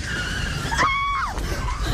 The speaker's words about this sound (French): freina brusquement et s'arrêta en hurlant